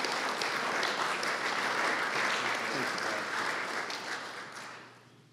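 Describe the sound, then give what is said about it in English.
An audience applauds to welcome a speaker at an event. The clapping is fairly faint but dense and steady, then tapers off toward the end. “Everyone put your hands together. Let's give him a warm welcome.”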